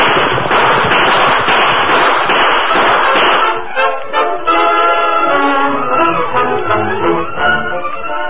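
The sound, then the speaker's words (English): Gunfire volley in a Western radio drama: a dense burst of rapid, loud crackling shots for about three seconds, then fading into a sustained musical passage. “We'll give them another volley from here. Keep shooting as you ride, Tonto.”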